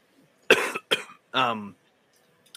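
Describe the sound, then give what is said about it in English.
A person coughs three times in quick succession. The first two coughs are short, harsh bursts, and the third is longer and more voiced, with brief quiet between them. “Excuse me, I got a cough going on”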